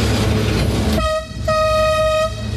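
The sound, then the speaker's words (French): Inside the driver's cab of the La Mure tourist train in Isère, a loud rumbling engine and rail noise gives way to a long, steady horn blast, briefly broken, over the continuing rumble. “On entend beaucoup de bruit, c'est impressionnant une cabine de train comme ça. Effectivement, on a beaucoup de sons entre le bruit de la machine, le bruit des rails qui peut craquer un petit peu, le klaxon”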